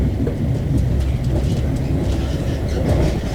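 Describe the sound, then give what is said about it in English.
Inside a Midland Main Line non-stop train to London St Pancras, a steady low rumble and rattle of the carriage continues without pause at an even loudness. “Very good evening, welcome to this Middle Main Line 1655. Non-stop service now through to London St Pancras, arriving into London approximately 1844.”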